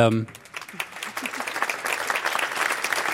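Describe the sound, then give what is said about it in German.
Applause from a lecture audience: many hands clapping in a dense, steady clatter that swells slightly, with a voice talking briefly at the start. “Ich quatsch jetzt nicht so schnell den Applaus, den sollen Sie haben für diesen Punkt.”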